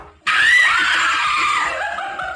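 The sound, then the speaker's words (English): A woman lets out a loud, shrill, blood-curdling scream as a prank on her friends. It starts abruptly and holds as one continuous piercing shriek for about two seconds, easing slightly toward the end. “There's a woman who decides she'd prank her friends, we don't know why, by letting out a random blood-curdling scream, and then this happens.”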